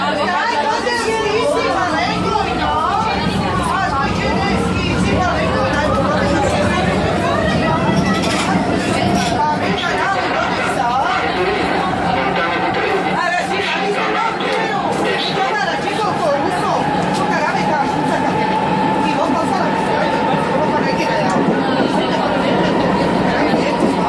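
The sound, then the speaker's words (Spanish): Dense crowd chatter fills a metro station in Rome, Italy, where passengers wait for trains. The constant babble of many voices runs loud and unbroken throughout, over a low rumble, with a faint tonal whine that slowly rises in pitch. “Metro de la ciudad de Roma, Italia.”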